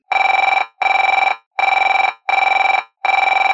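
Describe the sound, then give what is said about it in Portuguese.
Ringback tone heard while placing a telephone call: five loud, buzzy, evenly spaced ring bursts at a steady pitch, with short silences between them. “Eu vou ligar para ele agora.”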